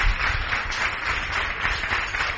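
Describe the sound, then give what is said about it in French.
Applause from a church audience welcoming a pastor to a morning service: a dense, steady patter of many hands clapping throughout, with no pauses or voices standing out. “Je voudrais vous inviter à accueillir le pasteur Paul Abesolo sous vos acclamations.”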